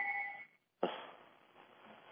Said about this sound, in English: Jesus, what's going on over there? It's, I forgot to shut my other phone off because usually I'm on it.